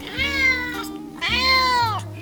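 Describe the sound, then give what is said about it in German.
A cat meowing in greeting inside a goldsmith's studio: two clear, drawn-out meows, the second longer, each rising then falling in pitch, over soft, steady background music. “Eine Katze begrüßt mich.”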